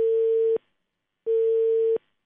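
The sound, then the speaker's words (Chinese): A telephone tone sounds on an unconnected call: two loud, steady, single-pitched beeps, each about half a second long, separated by a pause of similar length. “好，目前呢电话暂时是没有接通哈，那我们继续拨打一下长沙市城市公共交通事务中心”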